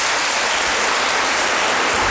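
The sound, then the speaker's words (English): Dense, steady audience applause for two debate finalists at a televised debate final, a continuous hiss of many hands that holds at a loud, even level throughout without pauses or distinct individual claps. “A round of applause for both of you.”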